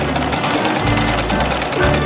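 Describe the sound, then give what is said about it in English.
A tailor's sewing machine stitches a cap with a fast, steady, mechanical rattle and whir that runs unbroken throughout. “And he quickly got to work measuring and cutting and sewing”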